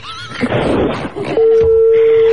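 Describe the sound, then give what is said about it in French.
A telephone line tone as a car's licence-plate number is dialed for a call: a burst of noise gives way to a steady, loud, single-pitch tone that holds to the end. “Non, sérieux, c'est la première mondiale, on appelle le numéro.”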